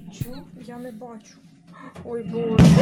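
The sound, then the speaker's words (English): A sudden loud, roaring blast bursts in at the end as a Russian plane fires rockets into a neighborhood in Hostomel, Ukraine, after stretches of people talking over a quiet background. “A Russian plane is firing rockets indiscriminately, apparently, into a neighborhood over Hostomel, Ukraine.”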